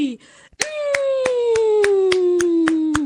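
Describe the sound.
A class or audience claps on request. The hand claps are sharp and evenly spaced, falling in a steady rhythm over a held, slowly falling voice-like tone.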